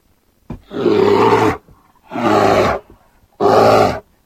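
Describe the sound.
A bear gives three deep, rasping roars, each lasting about a second, with short silences between them. The last roar is the loudest.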